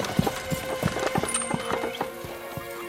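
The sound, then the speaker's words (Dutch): Hooves clip-clop in a steady, even rhythm as a horse-drawn carriage approaches from a distance along a rural road past sod huts and fields, with many moderate hoof strikes and no voices. “In de verte komt een rijtuig aanrijden.”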